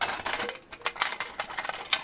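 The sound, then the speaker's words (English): A metal cooking grate being set onto a smoker firebox, giving a run of bright, rattling metallic clinks and scrapes in quick, uneven succession, fairly loud with no talk. “it has the grate you can put on top so you can cook on top of it. Like that.”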